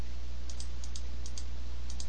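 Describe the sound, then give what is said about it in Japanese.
Rapid clicking of a computer mouse: many sharp, light clicks, mostly in quick pairs, spread over a steady low hum with no talking. “めちゃめちゃカチャカチャ言ってるな クリッククリックしまくってます今”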